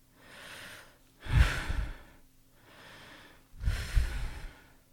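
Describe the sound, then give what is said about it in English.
Heavy, laboured human breathing from someone with burning chest pain: two slow breath cycles, each a softer, quieter breath followed by a louder, rougher one, with no talk. “Just breathe, calm down. In and out now, in and out.”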